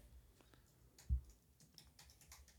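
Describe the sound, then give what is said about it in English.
Keys struck hard on a computer keyboard, many faint, quick clicks in an uneven run, with one heavier thump midway and a denser flurry of strokes at the end. “you typed loud now? No, I'm just saying like I type like I'm hitting the keys hard.”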